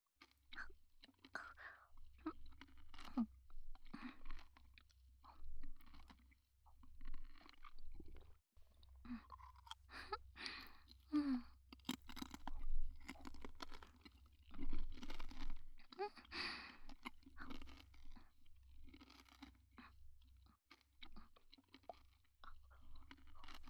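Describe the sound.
Crunchy chewing of a sweet pineapple snack with a crisp outer shell and juicy pineapple inside: faint, close bites and crackles come in irregular clusters, with brief quieter pauses between mouthfuls, over a low steady hum.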